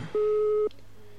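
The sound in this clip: A single electronic prompt beep from a telephone-fax-modem switch, played before the caller is asked to say a word to choose phone mode. It is steady and even-pitched, lasts about half a second, and sounds alone over a faint line hiss.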